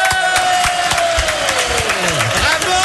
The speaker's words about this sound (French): Faites du bruit pour elle. Voici Emma Kekup.